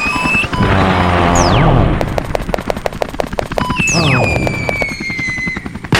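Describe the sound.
Bomb explosions in a video game: two falling whistles each drop into a long run of loud, rapid, crackling bursts, steady and dense throughout, with no voices.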